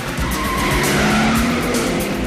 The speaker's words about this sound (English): The spy reverses out sharply.